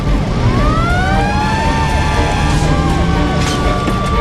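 A fire engine siren, heard during a fire call-out, wails loudly and continuously in overlapping rising and falling tones over a steady rumble of traffic noise.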